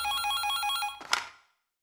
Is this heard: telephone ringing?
yes